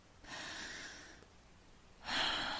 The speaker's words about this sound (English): Take deep breaths.